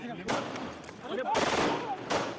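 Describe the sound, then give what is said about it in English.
Pistol shots in news footage of a former Indian lawmaker being shot dead on live TV while under police escort: three sharp, loud bursts, each followed by a noisy tail amid a general commotion. “A gunman is seen reaching over the shoulders of police to point a pistol at the Temple of Ahmed, whose turban is blown off as the gun discharges.”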